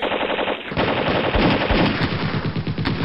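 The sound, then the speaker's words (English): A company of soldiers opens fire in a heavy, continuous barrage, a dense rattle of rapid shots that thickens after the first moment and stays loud and unbroken throughout, with no voices. “A Company! Fire when ready!”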